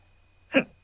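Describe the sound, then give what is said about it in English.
A single hiccup: one short, sharp voiced burst that rises and fades quickly against near silence. “I have the hiccups.”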